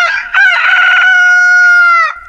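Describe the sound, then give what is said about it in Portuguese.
A rooster crows once, loud and alone: a brief opening note breaks into a long, sustained, harmonic-rich call that holds steady before dropping away at the end. “o galo cantou.”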